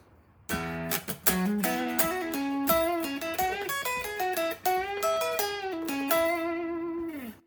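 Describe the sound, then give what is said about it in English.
An electric guitar plays a blues lick in E major pentatonic, alone and clear: a quick, rhythmic run of many picked notes that ends on a long sustained note. “So you can already hear this is predominantly an E major pentatonic lick.”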